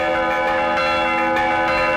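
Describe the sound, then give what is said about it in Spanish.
Church bells ring out in a few overlapping strokes, each one leaving bright, sustained metallic tones that hang and blend together. “sonido de las campanas”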